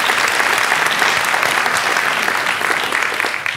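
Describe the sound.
Loud, dense applause as an audience welcomes a guest journalist invited to the microphone at a panel talk. The clapping is sustained and even, thinning a little toward the end.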